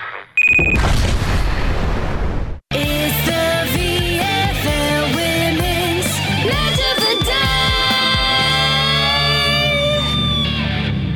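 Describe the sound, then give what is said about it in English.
An explosion sound effect as an ad self-destructs: a loud, broad boom that roars for about two seconds, then cuts off abruptly before music begins. “This ad will now self-destruct.”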